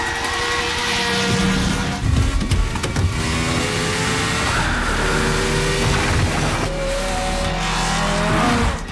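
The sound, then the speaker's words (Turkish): Racing cars speed past during a race, among them a Lotus: a continuous loud engine roar with whining harmonics that waver in pitch over about nine seconds. “Yarış şu anda onun için oldukça kötü gidiyor. Şampiyonlar ekibi James Arnold'u bayağı açtı. Lauda tüm araçları üst üste geçiyor.”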